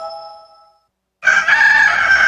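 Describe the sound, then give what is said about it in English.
A rooster crows in a single loud, harsh, sustained call that bursts in after a short silence. “Chicken.”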